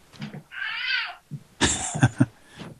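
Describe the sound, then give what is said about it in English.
A cat meows once over a phone connection in a drawn-out, wavering, mid-pitched cry, with other muffled noises from the line before and after it. “I hear a cat. I hear a cat there.”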